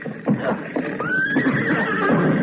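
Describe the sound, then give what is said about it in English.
A horse whinnies loudly during a barn fire, a long shrill neigh that rises and then holds, over rustling, shuffling noise and a few soft thumps. “Trying to get the last horse out. Smoke's so thick.”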